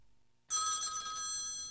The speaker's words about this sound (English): At 5 in the morning, the phone woke us up.